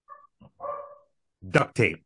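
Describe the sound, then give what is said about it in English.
A dog barking, with a few short, quiet yips and whines followed by two sharper, louder barks near the end. “Mama must be home. I hear the dog barking.”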